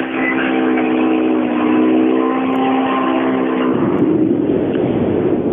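A rally car engine at the start of a special stage on loose gravel. It gives a loud, steady droning roar that drops sharply in pitch partway through, then continues lower and rougher.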